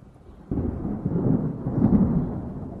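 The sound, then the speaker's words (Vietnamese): Thunder ahead of a rain shower: a sudden deep rumble breaks in after a quiet start and rolls on, low and heavy, swelling slightly toward the end. “Tiếng sấm nổ báo hiệu một trận mưa rào sắp được đổ xuống.”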